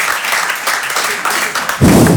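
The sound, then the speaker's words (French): An audience at an evening talk applauds with a light patter of many claps, which gives way to a louder, fuller burst of sound near the end. “Peut-être il y a des gens plus optimistes ce soir, par applaudissement sincèrement, qui pensent que ça va bien se passer pour nous dans le futur.”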